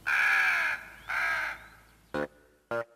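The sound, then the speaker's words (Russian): Harsh crow-like caws from several black birds circling overhead: two long drawn-out calls, then two short clipped ones, heard alone. “Над ним кружило несколько черных противных птиц.”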